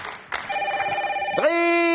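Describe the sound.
A telephone bell ringing: a rapidly trembling metallic ring lasting about a second, then a steady, sustained tone that holds to the end.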